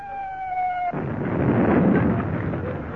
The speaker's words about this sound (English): And it wasn't a bomb, it was a shell.